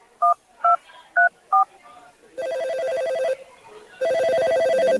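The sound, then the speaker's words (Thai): Telephone keypad tones as a number is dialed to an anti-corruption hotline: four short, evenly spaced beeps, then two longer, louder sustained ringing tones. “พ่อโทรแจ้งสายด่วนปปช.1205 นั่นแม่ก็โทรเลยแล้วกันนะ”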